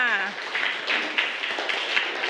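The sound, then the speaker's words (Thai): Students in a classroom clap for group 5 after a presentation, a light patter of hands with a few sharper claps standing out, while voices are heard at the start and briefly under the clapping. “เยี่ยมมากปรบมือให้กลุ่ม5ค่ะ”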